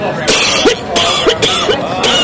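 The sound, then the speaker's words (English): Person coughing in a few harsh, dry bursts, each under a second apart and fairly loud, with no talk between them. “pardon me for coughing”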